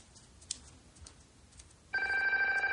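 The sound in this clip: A telephone rings in a 1998 crime thriller film, a bright, steady bell trill that starts abruptly after a quiet stretch holding only a few soft clicks.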